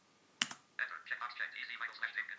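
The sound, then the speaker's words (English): A computer keyboard's Enter key is pressed, a quick double click in a brief sharp burst, then a person talks. “So just leave it alone and press Enter again.”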